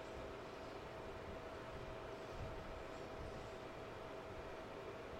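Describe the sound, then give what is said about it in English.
A train passes in a movie scene, heard as a steady, loud rumble that holds at an even level throughout, with no voices. “Oh, fuck, yeah, the train.”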